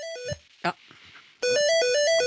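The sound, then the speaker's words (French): A telephone's electronic ringtone plays a stepping melody of bright, high tones. A short phrase is followed by a quieter pause broken by a brief noise, then a louder run of the tune continues to the end. “Ah, on a un coup de fil, on dirait, hein.”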